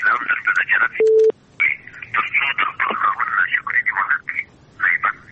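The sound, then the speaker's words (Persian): A short, steady beep of a telephone line tone sounds once when a caller's call drops, set between stretches of continuous talk. “خب فکر کنم تماس شان قطع شد، اما تماس دیگی را داریم روی خط.”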